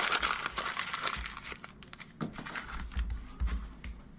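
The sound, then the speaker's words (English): A page being ripped out of a book or pad: papery crinkling and tearing in several uneven bursts over about four seconds, with no talk. “I'm going to rip this page out.”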